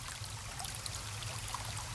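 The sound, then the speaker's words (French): Flowing stream water at a riverside, a faint, steady wash of trickling water with no clear breaks or other sounds. “Balade au bord de l'eau.”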